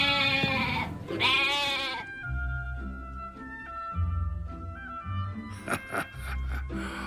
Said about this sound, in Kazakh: Екеуі тағы біраз жүрген соң шалғынды жайлаған ешкілерді